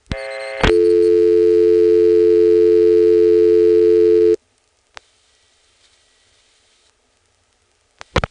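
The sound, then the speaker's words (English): Telephone exchange register sender responding to dialing: a loud, steady tone sounds for about four seconds and cuts off abruptly, followed by near silence with a few sharp clicks. “I'm going to dial 49 to drop the register sender, and then a 5.”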